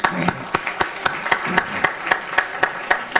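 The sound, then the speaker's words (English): Steady, evenly spaced hand claps in a quick, even rhythm, about a dozen in a row, giving students a hand at a county commission meeting; the claps ring out crisp and bright with no talk over them. “Now, I'd like to give a warm welcome to our students, and Ms. Baratis, if you would bring them forward for a special picture with the commission, but give our students a hand,”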